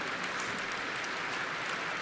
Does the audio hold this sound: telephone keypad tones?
no